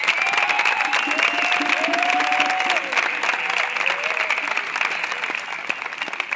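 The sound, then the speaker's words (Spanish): Applause from the audience for the performers at a batucada percussion ensemble rehearsal: a dense, steady clatter of many clapping hands that holds loud, then eases off slightly toward the end. “Lo vamos a despedir con un aplauso, pero de manos a los chicos por hoy.”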